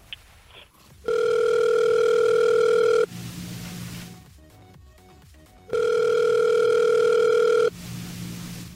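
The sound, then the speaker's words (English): Telephone call being placed: two long, steady electronic ringback tones, each about two seconds, with a stretch of soft clicking and line noise between them and a low hum in the quiet gaps; no talking. “You know, you gave us the number already. I just kind of want to dial it and get into it.”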